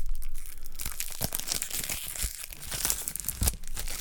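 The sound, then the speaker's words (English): Cellophane wrapper being ripped off a brand-new pack of trivia cards: loud, continuous crackling and crinkling with sharp tearing bursts throughout, no talking. “Ripping the cellophane from around it. Yeah, you can hear it.”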